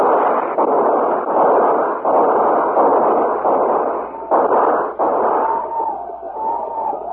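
A volley of rifle gunfire fired on command in a frontier battle against attackers on horseback: a dense run of loud, overlapping bursts that keeps going almost without a break.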